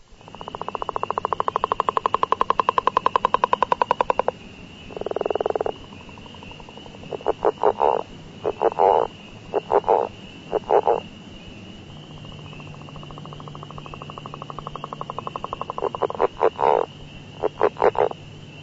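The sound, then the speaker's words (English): Northern leopard frog calling: a long, rapid snore-like rattle, then a series of short grunting croak bursts, another long rattle, and more brief bursts. The calls are loud and clear against a quiet background. “Northern Leopard Frog.”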